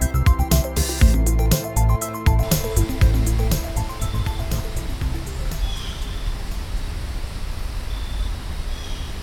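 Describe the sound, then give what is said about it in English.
Wet, breezy forest ambience at Long Branch Park in southern Maryland, among sycamore, beech, tulip poplar and oak trees in the remnants of Hurricane Ian: a steady wash of wind and rain-like noise with a few faint high chirps. “I am outside at Long Branch Park in southern Maryland on a wet, breezy day, thanks to the remnants of Hurricane Ian.”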